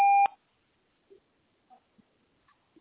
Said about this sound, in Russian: Запись сообщений начнется после сигнала.